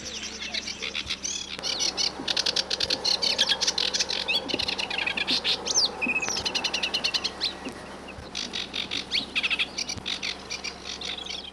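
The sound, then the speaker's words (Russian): Reed warblers chatter without pause beside a quiet river near a mill, in the shade of waterside willows: a dense, loud stream of rapid chirps, trills and buzzy notes that runs through the whole clip. “За мельницей, над тихой Соротью, в тени прибережных ив безумолку трещат камышовки.”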